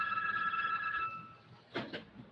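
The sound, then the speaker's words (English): A telephone ringing with a steady electronic trill that holds and then fades, followed by two brief clicks. “Of course the phone rings.”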